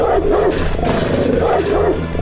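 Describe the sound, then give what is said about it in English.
A dog behind a gate barks repeatedly, giving several deep, rough barks in a fairly steady rhythm over a low rumbling background. “That dog hears you guys and starts banging itself against the gate again and freaking out.”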